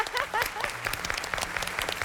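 Applause from a small group at a team activity where a prize was won: quick, steady hand claps continue for about two seconds at a moderate level.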